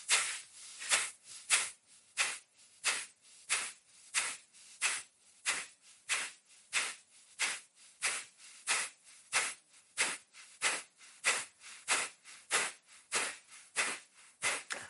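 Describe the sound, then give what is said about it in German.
Kapalabhati yoga breathing during a lying-down session: a long, steady run of forceful nasal exhalations, roughly two per second. Each one is a sharp, breathy hiss, heard alone without any talk. “Und noch eine Runde Kapalabhati einatmen beginnen.”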